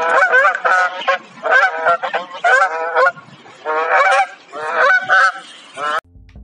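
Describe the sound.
Geese on a farm honking loudly in repeated bursts of nasal, harmonic calls. Several overlapping calls follow one another for about six seconds, then stop abruptly.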